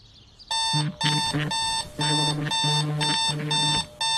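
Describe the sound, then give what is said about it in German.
A phone's message notification alert chimes out a bright electronic melody of bell-like tones in several short, loud bursts, without any talking. “Oh nein, bitte nicht schon wieder die Verlegerin. Ah nee, Nachricht von Tante Putzi.”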